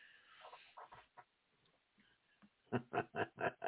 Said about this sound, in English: It's the sound of the goat.